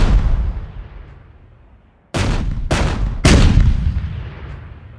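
Gunfire captured in a weapons recording session with 14 microphones: three sharp, loud cracks, each followed by a long booming rumble, after the fading tail of an earlier shot.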